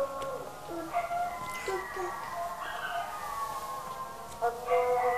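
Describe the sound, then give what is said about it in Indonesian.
A dog howls in long, wavering, mid-pitched cries that rise and fall several times, while people talk quietly underneath. “Suara apa itu? Anjing. Anjing dulu apa? Anjing kan suaranya kan begitu.”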